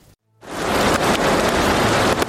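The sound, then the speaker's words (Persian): Steady rain in drought-hit Iran, a dense, even hiss that starts abruptly after a moment of silence and stays loud and unbroken to the end. “باران هم تن داغ ایران را سیراب نمی‌کند.”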